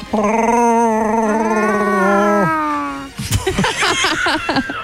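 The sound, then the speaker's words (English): A person's voice imitates a Wookiee roar from a film: a sustained, wavering, howl-like growl for about two and a half seconds, then ordinary talking follows. “Never tried to do your own Chewbacca sound? Can you do that?”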